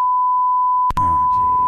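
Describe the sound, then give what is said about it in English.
A steady, high-pitched censor beep covers a spoken address. It is a single pure tone that breaks briefly near the middle, then continues over a muffled voice underneath. “Like his address got get beeped out.”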